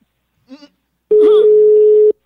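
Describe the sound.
A telephone call rings out as a single steady mid-pitched electronic tone lasting about a second, after a brief faint vocal sound.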